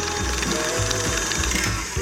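An electric kitchen mixer beats chunks of cream cheese with lime zest into a pina colada pie filling, giving a steady, continuous mechanical whir with a rattling, gear-like texture. No voices are heard.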